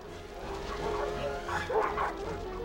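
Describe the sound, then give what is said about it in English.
Dogs barking and yipping as a mixed pack of hounds and terriers gives chase, a few sharp calls rising over a steady rumbling background of running and commotion. “Dozens of dogs gallop at their heels, hounds and terriers, retrievers and mutts.”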